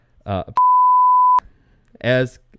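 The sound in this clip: A buzzer gives a single steady, mid-pitched electronic beep lasting under a second. It sounds alone between two short bursts of talk.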